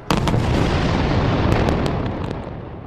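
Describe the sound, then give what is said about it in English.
Israeli rocket strikes and airstrikes explode in the Gaza Strip at night. A sudden loud blast opens into a continuous roaring rumble with a few sharp pops, then eases slightly toward the end. “It's the sound of Israeli rockets targeting Hamas in the Gaza Strip.”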